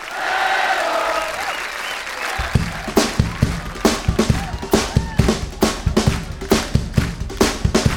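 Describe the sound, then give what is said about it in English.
A concert crowd in Cologne greets a new keyboard player with loud cheering and applause. The noise then settles into steady rhythmic clapping, many claps in time. “Please put your hands together for Mr. Brian Harron.”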